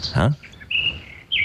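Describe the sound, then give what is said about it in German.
Nightingale singing, recorded at night: a few brief, high, clear whistled notes, preceded by a short spoken word. “Das ist eine Nachtigall. Habe ich selbst aufgenommen, mitten in der Nacht. Die heißt auch Nachtigall, die kann die ganze Nacht durchsingen”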